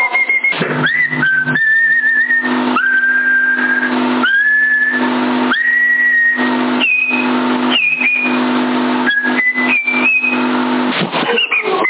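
Whistling tones cutting into a CB radio channel 10, a string of loud, steady whistles that jump between higher and lower pitches, each held for about a second over a constant background hiss and hum.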